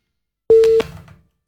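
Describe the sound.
A telephone busy tone sounds after a call is cut off. It is one loud, steady mid-pitched beep that breaks off sharply, followed by a brief fading hiss of line noise.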